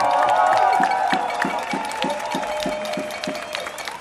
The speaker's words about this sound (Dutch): Nogmaals een groot applaus voor Tofik Dibi, alsjeblieft.